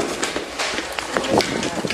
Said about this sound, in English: Hey, she's running. She's running. She just ran downstairs.